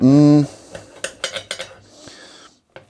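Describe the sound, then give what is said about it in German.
A freshly baked pizza is cut on a plate, making a series of sharp metallic clicks and scrapes of cutlery against dishware. The sounds come at an irregular rhythm and fade to near silence near the end. “Meine Pizza ist gerade fertig. Ich schneide die schon mal eben.”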